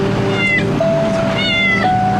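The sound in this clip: A stray cat meowing: loud, drawn-out, plaintive meows repeated over a steady tonal hum, each call bright and wavering.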